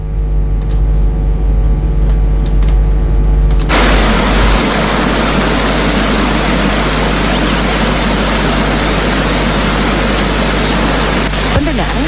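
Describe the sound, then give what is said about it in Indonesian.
A flowing water stream rushes in a steady, loud, unbroken hiss that fills the whole stretch without pause or clear individual splashes. “Keindahan alam sembari menikmati aliran air yang mengalir sangatlah menyejukkan hati dan tentu memanjakan mata.”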